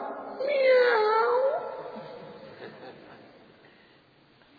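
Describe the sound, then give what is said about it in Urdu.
A voice imitates a feeble, sickly cat's meow: one drawn-out, wavering wail that is moderately loud, then fades into quiet background noise. “بس یہ میاؤں سننا تھا، سارے چوہے بھاگے”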